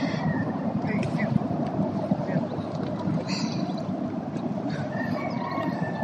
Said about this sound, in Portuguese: Os carros passam, os galos.